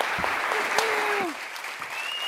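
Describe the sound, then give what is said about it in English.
Audience applause welcoming speakers at the Los Angeles Public Library, dense steady clapping that eases slightly partway through, with a voice briefly heard over it. “please join me in welcoming both Attica Locke and Erica Edwards to the Los Angeles Public Library.”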